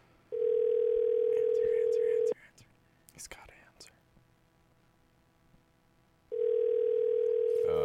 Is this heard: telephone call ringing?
yes